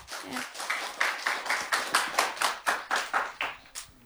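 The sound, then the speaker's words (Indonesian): Audience applause after a student yell performance at MTs Negeri 2 Toli-Toli, heard as many rhythmic claps in near-unison, evenly spaced beats repeating steadily at moderate volume. “Mari berikan aplaus yang meriah dulu dong.”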